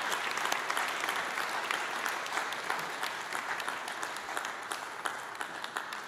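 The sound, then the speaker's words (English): Warm applause from a church audience welcoming a guest speaker to the stage: dense, steady clapping that holds at an even level for the whole stretch, with no break or voice standing out. “Can you put your hands together and give a warm Calvary welcome to Lee this morning?”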